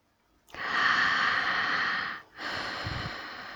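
Long airy breaths during a guided breathing exercise: one sustained exhale-like rush of air, a brief gap, then a second breath, both soft and steady with no talk.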